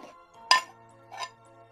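A ceramic cup is set back down on a saucer, giving two clinks: the first sharp and bright, the second softer. A low steady hum runs beneath, with no voices.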